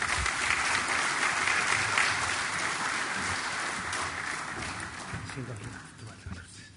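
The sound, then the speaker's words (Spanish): Audience applause greets Uruguayan president Dr. Tabaré Vázquez as he is introduced at a CECAN 2025 initiative event. The clapping is loud and dense, a steady wash that gradually fades toward the end. “A continuación, hará uso de la palabra el señor presidente de la República, doctor Tabaré Vázquez, quien asimismo es embajador global de la iniciativa CECAN 2025. Recibamos con un aplauso al señor presidente.”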